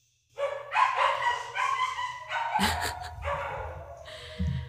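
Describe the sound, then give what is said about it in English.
Dogs bark loudly and almost continuously for several seconds, overlapping yaps and barks forming a steady, busy din. “hold for barks.”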